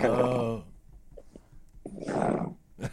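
A French bulldog growls with a low, harmonic rumbling at first, then a quieter stretch, followed by rougher, raspy growl bursts.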